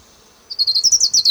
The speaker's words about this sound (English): Ground warbler number 3.